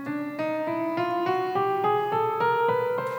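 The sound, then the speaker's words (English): Twelve piano notes played one after another in a steady, even rhythm, each a step higher than the last, rising evenly with no talk over them. “There is only 12 notes that exist. Could you do me a favor? Just play the 12 notes for us.”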